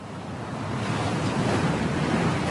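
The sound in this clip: Sea waves washing onto a tropical beach in Guadeloupe beside a seaside holiday club, a continuous broad roar of surf mixed with wind that swells slightly partway through.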